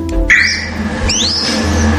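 A captive-bred red kite chick, hatched that week, downy and weighing only 40 grams, gives two thin, high whistled calls, the second sweeping upward and trailing off, over a low steady background hum.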